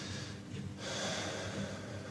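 Deep breaths in and out during a lung examination at a spa hotel health check: steady, airy, fairly loud breath noise with no talk.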